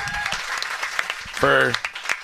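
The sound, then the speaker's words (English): Round of applause for a guest arriving at a craft beer gathering: a short patter of clapping, with people talking over it throughout. “Jim Cook has arrived. We have a round of applause.”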